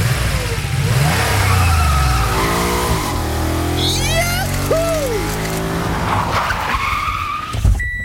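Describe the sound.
Car engine driving past a speed camera on a 50 km/h street in Schleswig; the engine note rises and falls as it accelerates and passes, with tyre and road noise and a brief spoken phrase from the driver.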